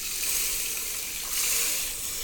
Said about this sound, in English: Add in our rice. And we're going to add all 8 cups of our vegetable stock.